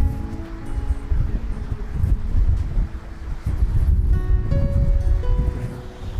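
Strong wind roars over the microphone while riding a four-speed Brompton folding bicycle by the sea, a loud, continuous gusting rush that fills the whole stretch.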